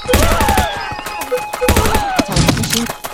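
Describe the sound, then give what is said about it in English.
Machine-gun fire in a video game comes in a few rapid bursts of loud, crackling shots with heavy thuds. Other busy game effects and a voice mix in between the bursts. “Machine gun. Here's my machine gun.”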